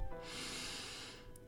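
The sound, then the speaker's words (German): A single deep breath drawn in, a soft, airy hiss that swells and holds steady for about a second before fading, faint and heard alone. “Dann atme nochmal tief ein”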